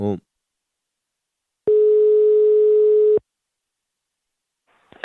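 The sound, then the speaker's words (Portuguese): Telephone call tone while a number is being dialed: one long, level beep lasting about a second and a half between silences, with brief voice sounds at the start and end. “E agora eu vou ligar pra Raimunda”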